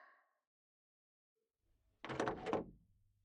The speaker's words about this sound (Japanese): 入っていい？開けるよ。